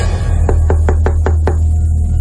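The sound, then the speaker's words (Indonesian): Six quick knocks on a bathroom door, evenly spaced in a brisk run, over a loud steady low hum. “ada yang mengetuk pintu kamar mandi.”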